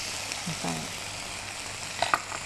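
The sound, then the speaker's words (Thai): Noodles being stir-fried in a wok with straw mushrooms, soy sauce, oyster sauce and brown sugar produce a soft, steady sizzle, with a few brief clattering stirs near the end. “เราผัดคลุกเคล้าให้ทั่วพอส่วนผสมเข้ากันกับเส้นดีแล้วนะคะ”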